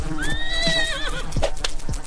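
A horse whinnies in a loud, wavering, high-pitched call that trails off, and a few hoof clip-clops sound during and after it.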